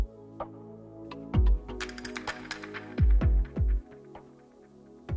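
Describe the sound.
Buttons on radio studio equipment are pressed, including a wrong one. Sharp clicks are scattered among several heavy low thumps at uneven intervals, with no voices.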